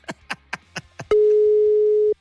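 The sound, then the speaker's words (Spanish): Telephone dialing tones while a call is placed: five short, evenly spaced beeps, then a single long, steady tone lasting about a second before it cuts off. “Ahí está sonando, ya está marcando.”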